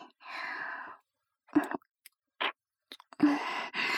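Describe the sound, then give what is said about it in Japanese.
Licking of sweaty skin comes through as a few short, soft, wet smacking and slurping sounds separated by brief silences. “舐めてあげるね。”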